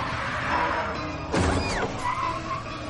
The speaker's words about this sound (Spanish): El BMW rompe la puerta abierta y da bandazos golpeando al Volvo.